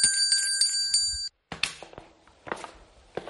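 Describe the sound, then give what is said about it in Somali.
A large metal bell with a short neck rings with several quick strikes over a bright, sustained high tone, then falls silent. Scattered knocks and thumps follow. “Waa gambaleel noocaya. Kani waa gambaleel laeed, aadna wuu weyn yahay oo barabaroolay qoor yar ayay leedahay”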